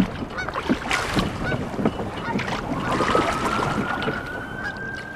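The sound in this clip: A crew rowing a boat on water in the Bay Area: irregular splashing and oar strokes mixed with wind, fairly quiet and continuous, with no voices.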